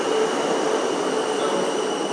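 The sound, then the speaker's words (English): Rumble of a South Western train service to London Waterloo pulling into platform 10 of a station, a steady loud rolling roar with a thin high whine held throughout, no voices. “The train now approaching platform 10 is the 10:58 Southwest train service to London Waterloo.”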